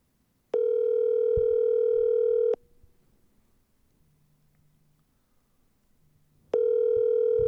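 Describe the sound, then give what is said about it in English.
A steady telephone line tone sounds while a number is being dialed on a call, with two even, sustained tones about two seconds long separated by roughly four seconds of near silence. “Wait, are you dialing the number? You don't have it saved?”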